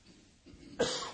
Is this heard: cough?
yes